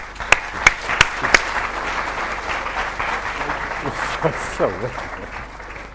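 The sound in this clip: Applause from an audience welcoming a lecturer at an evening lecture: dense, steady clapping, with a few sharper, louder claps near the start, and faint voices mixed in.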